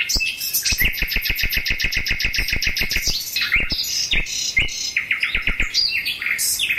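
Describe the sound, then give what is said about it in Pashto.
Caged birds in a flower greenhouse sing in many bright, rapid chirps strung into fast rhythmic trills, loud and overlapping, with no voices. “په قفس کې د بند مرغانو بهرنۍ سندرې لا خوندټه کې دي”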